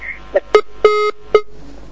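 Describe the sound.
Beeping on a telephone line after a caller is cut off: four short electronic tones at a steady middle pitch with a buzzy edge, the third held longer, heard alone without talk.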